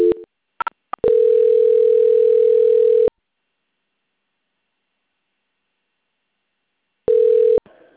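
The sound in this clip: Telephone line tones during a call transfer: a few short beeps, then a loud, steady mid-pitched tone of about two seconds. After a long silence, another brief tone sounds near the end.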